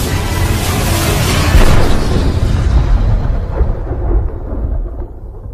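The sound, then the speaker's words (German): A huge cannon firing: a loud, sustained roaring blast full of deep rumble, its bright edge slowly dying away over several seconds. “Und zum Vorschein kam eine gewaltige Kanone. Was dann passierte, war grausam.”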